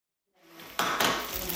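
A burger cooks in a pan with a steady hiss. A couple of metallic clanks from the pan or a utensil come near the start.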